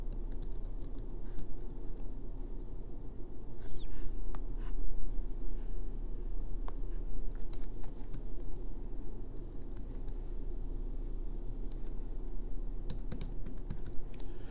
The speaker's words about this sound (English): Stand by. If I can learn how to type faster, this would be great.